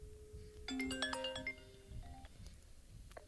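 A quiet phone ringtone for an incoming call, a quick run of bright chiming electronic notes followed by a few fainter scattered tones.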